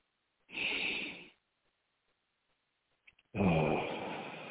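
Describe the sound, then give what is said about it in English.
A slow, deep breath out through the mouth. Two long breathy rushes are split by a quiet pause, with no talk between them. “In through your nose, let it out through your mouth, nice and slow, with an ah sound.”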